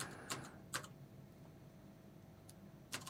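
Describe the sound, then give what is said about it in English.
Typing on a computer keyboard: a few faint, sparse key clicks separated by pauses, very quiet against a low background hum. “Sorry, I'm trying to type at the same time.”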